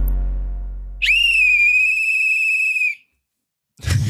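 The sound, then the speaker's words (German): A pea whistle is blown as a sound test, giving one shrill, steady blast of about two seconds that stops abruptly; a low fading hum comes before it, and a short burst of noise follows after a pause. “Ich entschuldige mich aufrichtig für den Anfang. Das war Trillerpfeife-Test. Wir testen auf Sound, Geräusch, Ton und Lautstärke.”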